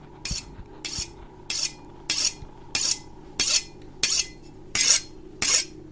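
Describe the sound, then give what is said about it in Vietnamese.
A knife is sharpened in a kitchen with nine even, rasping strokes, each a loud hissing scrape repeating at a steady pace about every two-thirds of a second. “trong tiếng gió thổi vi vút thì có tiếng mài dao vẫn cứ vang lên xoèn xoẹt”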